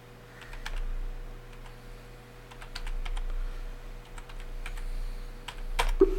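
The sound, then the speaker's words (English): Typing on a computer keyboard, a quick, irregular patter of many light key clicks that runs throughout, with one sharper click near the end, over a steady low hum. “I can't type and talk at the same time, otherwise things like this happen.”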